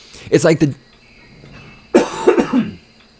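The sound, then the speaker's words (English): A loud cough during talk comes as two harsh bursts about a second apart. Each burst is made of a few rapid, rough pulses, with quiet murmur between them. “that was a nice loud cough, sorry.”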